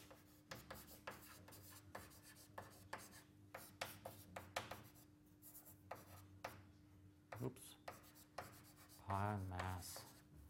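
Writing on a board during a physics lecture produces many short, scratchy strokes in irregular bursts over a low steady hum, with a louder scraping burst near the end.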